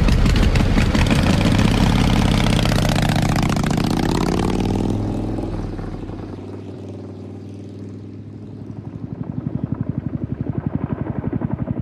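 A motorcycle with a sidecar runs its engine with a loud, rumbling drone. The drone eases down partway through, then settles into a steady, throbbing idle pulse.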